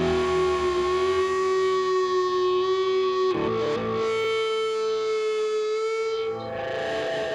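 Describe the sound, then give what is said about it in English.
Band noise built on chaotic guitar feedback: heavily distorted, sustained howling tones ring steadily and loudly like a drone, with a brief smeared break partway through before the wall of feedback resumes. “We are a melodic band, but we love noise. We love feedback.”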